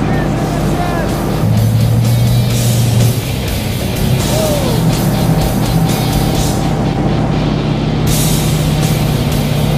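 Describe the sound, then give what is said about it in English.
A Russian tank being driven, its engine giving a loud, steady, rumbling roar that runs unbroken throughout while people talk over it. “Now I'm gonna drive the tank.”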